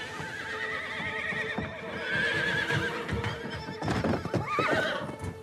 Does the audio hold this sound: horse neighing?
yes